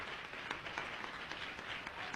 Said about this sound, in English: Let's give him a hand clap.